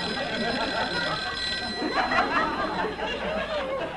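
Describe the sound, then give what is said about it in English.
A telephone bell rings on steadily through the whole stretch, fairly faint and partly masked by dense background noise. “Your telephone is ringing.”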